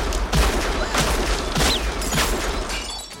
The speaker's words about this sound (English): aims his gun at the closet door and fires